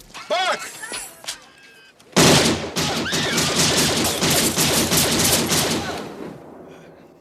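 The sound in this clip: Rapid gunfire, many shots in quick succession, fired around a man's head to scare him off smoking. A brief voice comes first, then a dense, loud burst of shots that tapers off toward the end.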